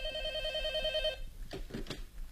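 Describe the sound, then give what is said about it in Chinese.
Telephone ringing: one rapid trilling ring lasts about a second and then stops, followed by faint scattered sounds. “喂，找谁啊？哦，在。哎，小沈，你的电话。”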